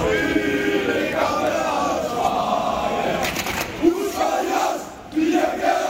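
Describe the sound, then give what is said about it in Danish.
Football supporters sing together in a stadium at a match in Haderslev with Randers as the visiting side. Massed voices hold a steady, dense chant over continuous crowd roar, with the singing swelling and dipping throughout. “Det er kor sang, der vil noget det her. Lidt tidligere kl. 14 vil det måske lyde sådan her i Haderslev, hvor Randers er gæster.”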